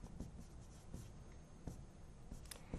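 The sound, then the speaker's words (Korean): Faint scratching strokes of writing on a board during a maths lesson, as percentages are written beneath earlier work: a few short, soft rubbing marks with no talk. “백분율을 아래다가 써볼게요.”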